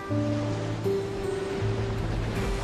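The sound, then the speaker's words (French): Rough sea surf under strong, gusty wind makes a continuous, full rushing roar with a low steady hum running beneath it. “Tout ce que la mer a à offrir, ce sont ses grosses bourrasques.”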